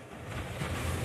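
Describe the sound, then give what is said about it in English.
Ocean waves off Albany wash in a faint, continuous roar of surf, with a low, even rumble and a soft hiss and no distinct breaks. “This hardly sounds groundbreaking, does it? But it's the sound of wave energy that could power a multi-billion dollar blue economy.”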